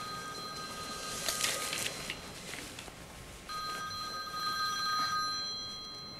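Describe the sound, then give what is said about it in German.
A telephone ringing with a bright, electronic-sounding tone in two long rings separated by a short pause, over faint background hiss and with no talking. “Ihr Mann ruft mich an.”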